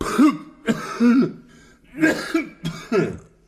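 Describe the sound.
A man's voice acts out a prince's coughing in a Russian story reading, with a series of rough, throaty coughs and throat-clearing bursts, each short and loud, separated by brief pauses.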